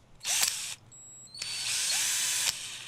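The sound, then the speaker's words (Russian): A cordless screwdriver whirs in two bursts, a short one followed by a longer sustained run, with a thin high motor whine between them; the buzzing is bright and fairly loud against an otherwise quiet background. “Нихуя себе, тут шуруповерты еще лежат.”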